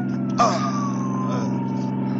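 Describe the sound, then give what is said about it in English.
An ambulance siren wails in a tense chase. A single tone glides slowly downward in pitch over a steady low engine drone, and a brief burst of noise sounds near the start. “tell the driver to stop this ambulance.”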